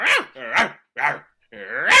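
A dog barks four times in quick succession, loud harsh barks with a rough, growling edge, each separated by a brief pause, with no talk.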